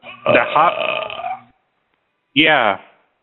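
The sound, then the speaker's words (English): Two loud, croaking burps, the first long and drawn out, the second short and rough after a brief silent pause. “that in Japan they say that's a compliment if somebody burps, right?”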